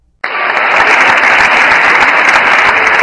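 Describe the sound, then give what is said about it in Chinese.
Applause from the audience at the end of a Shen Yun performance in Ottawa. It starts abruptly and stays loud and dense, a continuous wash of many hands clapping with no break. “当大幕落下时，观众用他们最热烈的掌声来表达对演出的赞叹。”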